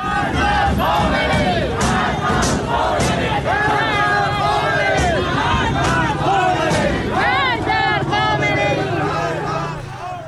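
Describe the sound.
A protest crowd in Tehran Pars, Iran, chanting: many voices shout slogans together in loud, rhythmic unison, holding steady almost to the end before easing slightly.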